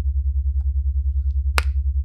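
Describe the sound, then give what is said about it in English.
One crisp finger snap cuts through a steady, softly pulsing low drone, otherwise quiet apart from a couple of tiny faint clicks before it. “I'm going to snap my fingers, and every time I do, you'll feel a rush of pleasure fill your body.”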